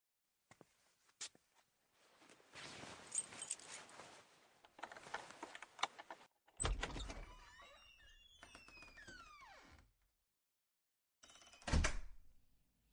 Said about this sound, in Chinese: 你先扶一下他，我拿钥匙开门。